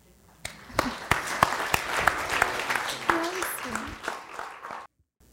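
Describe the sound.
Audience applause welcoming a speaker to a morning church service, with sharp, loud individual claps over a dense patter and a few voices calling out. The applause holds steady, then stops abruptly into silence.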